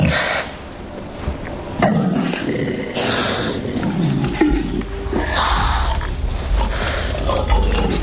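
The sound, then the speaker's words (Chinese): Two male wild boars clash in a fight, loud rough grunts and deep growling roars surging in irregular bursts over scuffling, with no speech. “又一只雄性野猪前来，向刚才那只野猪发起挑战。双方势均力敌，谁都不肯退让。”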